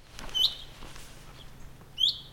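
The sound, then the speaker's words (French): Two short, bright chirps from a house sparrow, spaced well apart over a low, steady background hum. “Le moineau domestique siffle la fin de la balado.”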